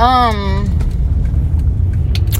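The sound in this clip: A car driving on the road gives a steady low rumble of engine and road noise after a brief burst of talking at the start.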